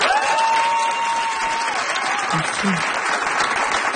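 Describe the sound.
Studio audience applauding during a television show, a loud, dense wash of clapping hands that stays steady from start to finish.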